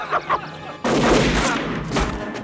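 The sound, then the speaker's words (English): Gunfire from a gun hidden inside a puppet: two light taps, then a loud, sustained burst of harsh blasts that stays strong before easing off. “So there's the gun inside the puppet. Yeah. The old gun inside the puppet.”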